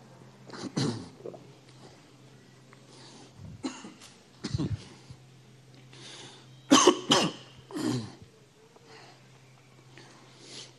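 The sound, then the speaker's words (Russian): A few coughs come in separate bursts with quiet gaps between them, the loudest a close pair near the middle. A low steady hum runs underneath throughout. “Закашлялся. Резко попил.”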